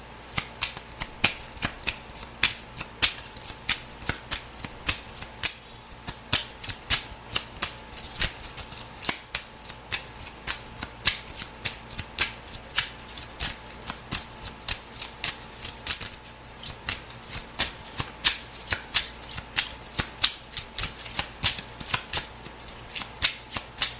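Cards are shuffled over and over while someone draws a few cards for a monthly astrological card reading. Many crisp, rapid clicks and flutters come in a steady, busy rhythm, with no talking.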